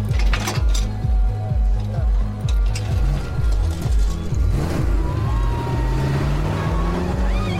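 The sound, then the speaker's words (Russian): Cars drive in through opened gates, their low engine rumble pulsing steadily, with a rising whine building toward the end. “Сторож открывает ворота. Машины въезжают на территорию.”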